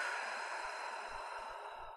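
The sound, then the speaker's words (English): A slow, deep breath out during a guided breathing exercise: a soft, steady, breathy rush of air that fades slightly toward the end, heard alone with no talk. “Longer breath out. And one more slow breath, filling the whole body. And out.”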